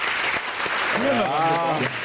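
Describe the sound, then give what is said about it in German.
A studio audience claps as a show-of-hands vote on perimeter development during a talk show. The clatter of applause is steady, and a voice speaks over it midway. “Wer ist für eine Randbebauung? Mal klatschen bitte.”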